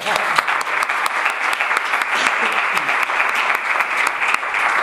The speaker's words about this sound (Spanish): Un aplauso.